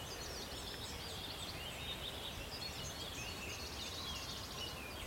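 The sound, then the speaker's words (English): Faint, high bird song rises from the edge of an oak wood, the thin trilling phrases of a wood warbler. The song sits low against a steady hiss of background noise. “You can hear a wood warbler in the background. Just up on the fringes of the oak wood.”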